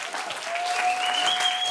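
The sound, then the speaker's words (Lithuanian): Audience applause greeting a guest, a well-known TV host, on stage: a loud, dense wash of clapping holds steady throughout, with a thin sustained whistle rising above it. “paprašyti, kad jūs plojimais pasveikintumėt”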